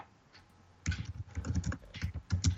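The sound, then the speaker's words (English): Typing on a computer keyboard: after a short quiet start comes a fast run of light, uneven key clicks that continues in bursts to the end. “just type in Google Maps. And then just type in Evergreen Speedway, Monroe, Washington.”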